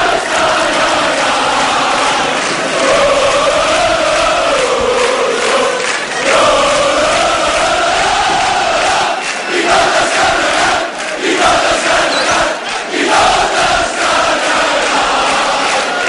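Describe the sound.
A crowd cheers at a castells festival day of the Colla Vella, a loud, unbroken roar of many voices shouting and cheering that holds steady throughout.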